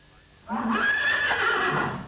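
A single loud horse whinny breaks from quiet, its shrill call rising then falling over about a second and a half, heard alone.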